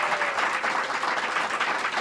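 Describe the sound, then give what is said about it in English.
Enthusiastic applause from a church audience: dense, steady clapping that fills the whole stretch at an even loudness, with no voices over it. “How about an enthusiastic clap? How about an enthusiastic clap?”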